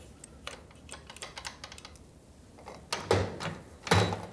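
A safe opens after its lock has been cracked, with a run of small, dry mechanical clicks followed by two louder metallic clunks near the end, all without voices.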